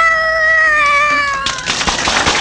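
A person imitates a cat's meow for a contest judged by crowd applause: one long, drawn-out voiced meow with a slowly sinking pitch, cut off by a loud, noisy burst.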